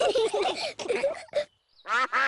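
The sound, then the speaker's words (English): Two short, nasal quacks from ducks turning up at a pretend picnic, following a stretch of lively talking. “Oh, it's the ducks. They always turn up when we have a picnic.”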